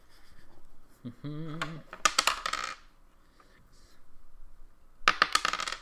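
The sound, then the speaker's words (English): Two eight-sided dice are rolled during a tabletop role-playing game, clattering in a loud burst of quick, bright clicks, then a quieter pause and a second short rattle. “And what is the damage? 2d8. Go ahead and roll it.”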